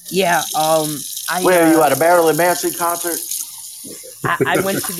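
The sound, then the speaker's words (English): A soundboard effect of rinsing water hisses steadily under a conversation, with people talking over it the whole time. “That's coming from my soundboard. That was me. Right. That was the sound of water rinsing.”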